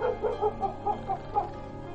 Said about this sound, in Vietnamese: Tiếng chó sủa nhấm nha nhấm nhặng vang lên ở khu đầu ngõ.